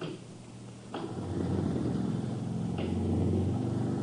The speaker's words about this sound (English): Hey, what was that? Generator's warming up.